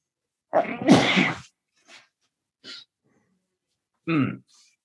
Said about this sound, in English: What does a Buddhist say after he sneezed?